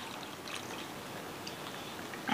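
Water is poured into a cooking pot while a fish dish is prepared, a steady, fairly soft splashing stream that runs without a break and has no talking over it.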